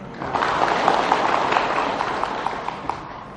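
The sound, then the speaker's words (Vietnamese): Audience applause at a Buddhist teaching talk swells up quickly into a dense, steady patter of many clapping hands, holding for about three seconds before thinning out. “Rồi, cảm ơn cô, vỗ tay.”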